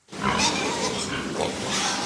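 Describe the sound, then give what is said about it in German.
Pigs and piglets in a pig barn in Bavaria, with sows lying alongside their piglets, make a steady, noisy din of grunts and squeals. The sound is continuous for about two seconds. “In den einzelnen Abteilungen liegen die Ferkel bei ihren Müttern.”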